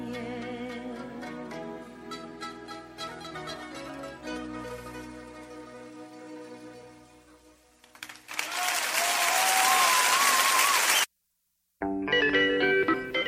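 A 1979 ballad ends and fades out, and loud, steady applause from an audience follows. The clapping breaks off in a brief dropout, then resumes.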